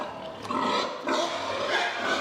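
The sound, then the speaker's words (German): Young sows feeding in individual stalls in a barn, a dense, continuous mix of grunts and squeals that stays fairly loud and steady throughout. “In dieser Herde sind viele junge, ungestüme Sauen. Deshalb sind sie beim Fressen in Einzelboxen.”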